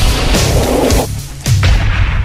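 A bomb explosion sound effect: two heavy, booming blasts in quick succession, the second hitting hard after a brief dip, with deep rumbling low end and very loud throughout.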